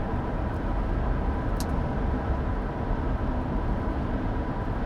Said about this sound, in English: So I am still driving.